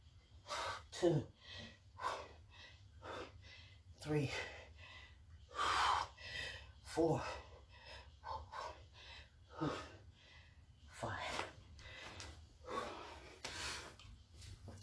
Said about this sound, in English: Okay, let me get my breath and I'll be right back.